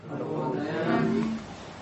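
Calves low in a drawn-out moo lasting well over a second, a deep, moaning tone that wavers in pitch before it fades.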